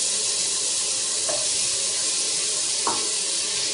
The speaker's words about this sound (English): So I add some garlic. Some onions.